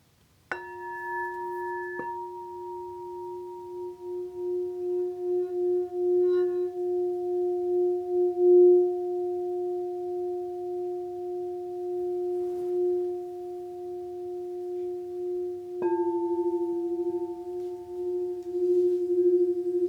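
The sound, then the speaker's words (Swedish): Crystal singing bowls, not metal, ring out in long, pure sustained tones. A few fresh strikes layer steady overlapping pitches that hum smoothly and evenly for a long stretch, with no voices. “Men de här skålarna är inte av metall. Det här är kristallskålar.”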